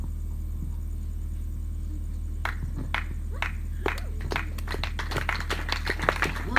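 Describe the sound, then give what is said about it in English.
Congregation clapping at a church prosperity service: irregular sharp claps begin partway in and grow denser and faster over a steady low hum. “The way, the, the way you are clapping is very, very good. Good speed, good speed.”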